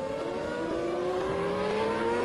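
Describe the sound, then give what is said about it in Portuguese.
Mika Hakkinen's Formula 1 car spins on track during a race, its engine a loud, continuous high-pitched whine whose pitch creeps slightly upward throughout. “Mika Hakkinen tenta pressionar Barrichello na volta 37 e acaba rodando. Olha o Mika Hakkinen rodando! Roda Mika Hakkinen! Roda Mika Hakkinen!”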